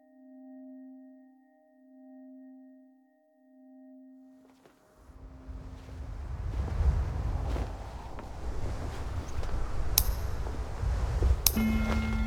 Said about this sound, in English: The fall wind was blowing hard, shaking the branches of the pines in the surrounding forest.